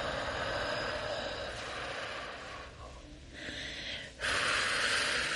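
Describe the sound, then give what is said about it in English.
A deep exhale, guided during a breathing exercise, sounds as a long, steady rush of breathy air that grows fuller toward the end. “Inhale. Smell the flower. Hold. And exhale.”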